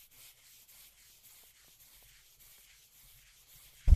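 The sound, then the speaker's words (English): A hand bumps against a microphone in one sharp, low thump near the end, after a quiet stretch of faint, scratchy rubbing from sandpaper on the skin of a leg's inside calf. “That was my hand hitting the mic.”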